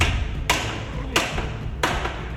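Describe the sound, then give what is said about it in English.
Hammer blows drive nails into a wooden board that is working loose: three sharp, evenly spaced strikes over a steady noisy background. “You two hammer the nails back into that board. It's starting to come loose. That's the last of the nails.”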